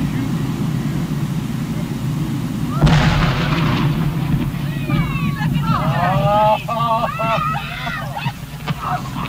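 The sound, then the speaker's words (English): Explosives blast a beached whale carcass apart in a single loud, low boom with a rumbling tail, followed by a series of shrill, wavering calls. “Our cameras stopped rolling immediately after the blast. The humor of the entire situation suddenly gave way to a run for survival as huge chunks of whale blubber fell everywhere.”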